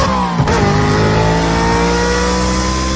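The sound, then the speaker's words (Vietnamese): A loud, steady engine drone from a Honda motorbike with its headlight on, coming up from behind; a brief dip in pitch near the start, then the hum holds constant to the end. “Một chiếc Honda đèn sáng quắc từ phía sau chạy tới, dừng lại sát ngay bên Lệ.”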